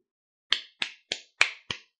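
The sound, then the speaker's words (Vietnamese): Five crisp hand claps used as a sound effect in an audiobook, evenly spaced and bright, each ending in a short decay and set against silence. “Bỗng vào lúc này, có âm thanh vỗ tay thanh thúy truyền đến.”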